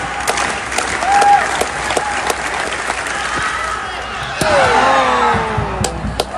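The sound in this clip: A stadium crowd claps steadily to urge on a men's high jumper before his attempt at an athletics competition; dense clapping fills the whole stretch and grows louder near the end.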